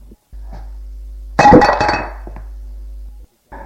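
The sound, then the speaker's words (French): A knife falls and hits the floor with a single bright metallic clink that rings briefly and then fades, over a steady low hum. “lui prend le bras où était le couteau qui tombe à terre.”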